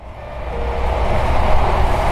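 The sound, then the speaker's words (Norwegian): A Vy passenger train runs on the Bergen Line with a steady low rumble and hiss of wheels and carriage that swells slightly in loudness as it goes on. “Ja, da får vi ønske velkommen på dette Vytoget til Bergen.”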